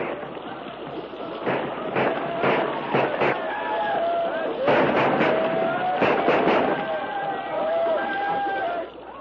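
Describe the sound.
A volley of rifle fire sounds as men shoot at attackers overhead, with sharp cracks arriving in quick clusters over a continuous noisy rush, while voices carry on throughout.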